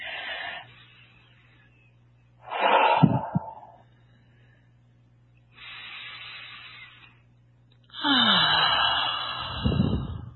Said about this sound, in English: I'm going to take a couple of deep breaths just to get rid of, just to center yourself and get rid of old energy.